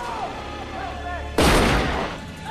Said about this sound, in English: The notes become spattered with blood as Hockney is shot in the back.